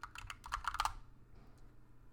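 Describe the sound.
Typing on a computer keyboard: a quick burst of several crisp key clicks in the first second, then near silence with only faint background noise.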